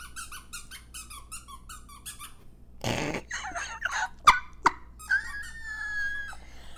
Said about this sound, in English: that's Antoinette's dog. It is. Please, I don't think she's not mic'd, so you may not be able to really hear her very loud. Let's keep her quiet.